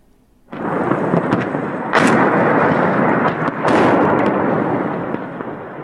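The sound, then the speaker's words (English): Artillery bombardment of the Azovstal steel plant in Mariupol: a continuous heavy rumbling roar, loud and unbroken, with two stronger booming surges. No one talks. “The Russian assault on Azovstal continues.”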